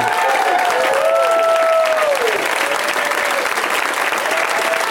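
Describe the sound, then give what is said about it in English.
A studio audience applauds to welcome three guests on a comedy show, dense clapping holding steady and loud, with whoops and cheers rising over it during the first half before easing into plain applause. “So the standing ovation thing's already worn off.”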